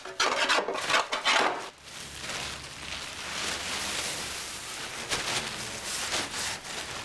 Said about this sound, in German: Wo gesägt und gehobelt wird, fallen Späne.